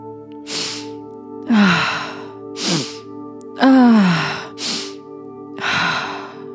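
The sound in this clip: Deep breathing during a heart-opening breathwork session: six slow, airy breaths, some sighing, swell and fade one after another over a steady sustained musical drone.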